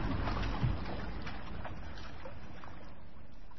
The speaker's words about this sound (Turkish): Bayan Berger gençlerin kürek çekerek kayıkhaneye dönüşlerini görünce şöyle diyor